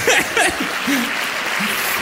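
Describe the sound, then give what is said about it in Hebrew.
Audience applause rises in a steady, loud wash of clapping as a voice speaks over it. “על זה כפיים.”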